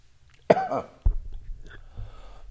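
Coughing after someone inhales their tea: two sharp, harsh coughs about half a second apart, the first longer and more strained, followed by quiet breathy rasping.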